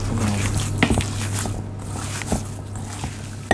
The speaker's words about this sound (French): Et là, je verse de l'eau dessus. Faut pas avoir peur de l'eau, parce que le maïs, ça boit énormément d'eau. Donc là, avec ta main, t'es en train de mélanger.